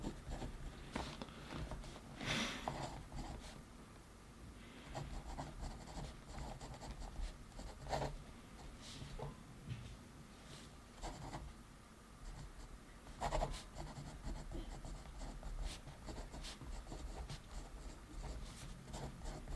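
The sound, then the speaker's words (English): Goals being written down by hand with a pen: quiet scratchy strokes and scribbles come in irregular bursts over about twenty seconds, with short pauses between words and no talking. “Write your five to 10 goals right now, and I'll write mine. Do them right now. Keep the video playing because I'm going to write mine right now. We'll do this together.”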